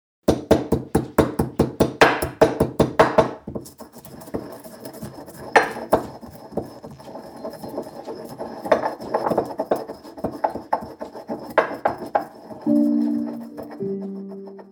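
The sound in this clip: Stone pestle crushing seeds such as nettle and plantain seed, along with herbs, in a flat dish for a breakfast ritual. A quick, steady run of sharp stone knocks gives way to slower, irregular clinks and taps.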